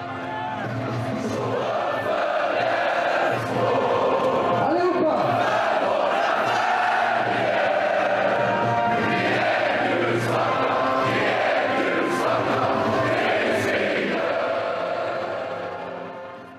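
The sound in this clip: A large crowd of Elfsborg football supporters sings a club anthem together at a 2006 Allsvenskan match, a dense, continuous wall of voices that stays loud and steady throughout before easing slightly at the end.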